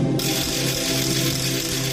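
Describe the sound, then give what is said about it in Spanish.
A wooden ratchet rattle (carraca) sounded for a Holy Week school procession gives a continuous, dense, loud clattering whir that holds steady from start to end. “Así ha sonado la carraca en el Colegio Juan Pablo II San Miguel de Pumarín”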